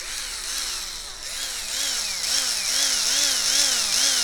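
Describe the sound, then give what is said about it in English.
An electric screwdriver motor runs continuously, a steady high whine whose pitch wavers up and down in a repeating cycle and grows slightly louder toward the end, with no talking. “So I ran down to the basement and I grabbed my electric screwdriver.”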